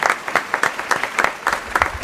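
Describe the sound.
A theatre audience applauds a choir with sharp, distinct claps rather than a smooth wash, the bursts coming in a quick, fairly regular, pulsing rhythm throughout.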